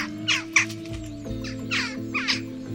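Crows caw in a series of harsh, raspy bursts, several spaced calls of moderate loudness over a low, steady droning hum.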